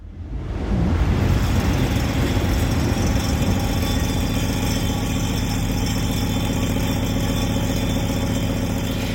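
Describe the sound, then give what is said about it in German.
A train rushes past in Jana Debroth's sound artwork Heppernder Tisch, a loud, dense rumbling roar that builds within the first second and then holds steady. “Heppernder Tisch heißt das Ganze und ich glaube, wir haben da die Bahn, die da vorbei brettert, gehört.”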